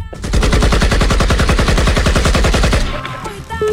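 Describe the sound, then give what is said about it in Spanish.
Loud gunfire staged as a firing squad volley: many rapid, evenly spaced shots in a steady machine-gun rhythm that stop abruptly near the end, followed by faint scattered noises. “Preparen. Apunten. ¡Fuego!”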